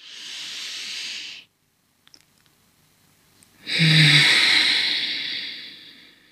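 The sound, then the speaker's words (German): Air drawn in through the nose during a breathing exercise: two airy, hissing breaths separated by a short silence, the second longer and louder than the first. “Also ich atme durch die Nase ein”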